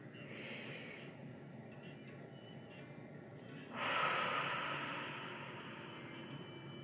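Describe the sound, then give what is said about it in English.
Slow deep breathing during a guided relaxation exercise: a soft airy breath early on, then a louder, longer exhale that rushes out midway and fades gradually. The breathing stays quiet throughout, with no talk. “So let's take two more deep breaths in together.”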